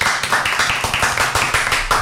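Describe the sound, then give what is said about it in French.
A short burst of applause for a presenter, a small group clapping quickly and steadily for about two seconds, fairly loud with no voices over it. “On peut l'applaudir quand même.”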